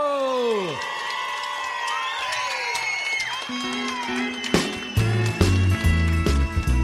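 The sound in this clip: A live concert audience at the historic London Dance Hall in London, Texas, cheers and whoops in a continuous din, mixed with sliding musical tones, with instruments and louder bursts coming in toward the end.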